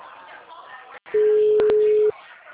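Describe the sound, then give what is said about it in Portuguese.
Telephone busy tone after a dropped call: one steady, mid-pitched tone lasting about a second sounds loudly after a quieter stretch of background sound. “a ligação caiu”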